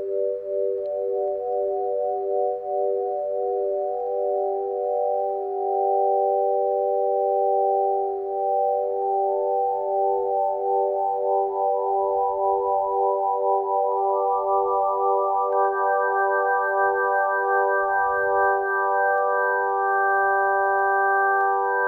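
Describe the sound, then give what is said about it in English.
Synthesizer tones in just intonation with a light chorusing effect, beginning on G and climbing step by step through the scale. Each new note sounds while earlier ones keep ringing, so a steady, shimmering stack of pure tones builds up. “Oh, I have chorusing on here, so you're hearing a little bit of chorusing.”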